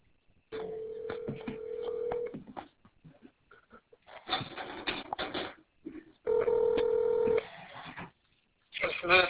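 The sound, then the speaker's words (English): A telephone call is placed, with two long, steady electronic tones separated by bursts of clicky dialing and line noise, then a brief busy burst at the end. “Let me call the driver and see if he's available.”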